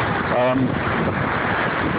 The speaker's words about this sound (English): the sea is looking amazing today. There's quite a wind up. The waves are well, they're spectacular.